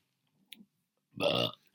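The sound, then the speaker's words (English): A single short, throaty human burp stands alone in near silence, lasting under half a second, preceded by a faint click. “Basically fucking burped myself.”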